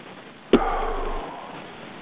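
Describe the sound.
One deep inhalation through the nose during a guided breathing exercise, a sharp onset followed by a steady airy draw of about half a second that then eases off, alone against quiet background.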